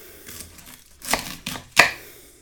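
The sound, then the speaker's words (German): A knife chops white cabbage, with the core removed, for a cumin slaw: three crisp, irregularly spaced cuts land on a board over quiet background, the last one the sharpest and loudest. “als Beilage gibt es Weißkrautsalat mit Kreuzkümmel. Den schneide ich jetzt klein, also den Strunk entfernt man.”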